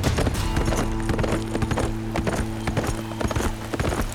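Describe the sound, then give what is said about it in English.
A roan horse gallops, its hooves pounding in a fast, steady clip-clop of many loud beats that continue through the whole clip. “put the roan into a gallop”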